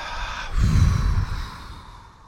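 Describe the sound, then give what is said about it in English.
A slow, deep breath in followed by a long exhale during a guided relaxation, a soft, airy whoosh that swells and then fades away gently, heard alone with no talk. “Taking a deep breath in, lots of love in. Exhaling, lots of love out.”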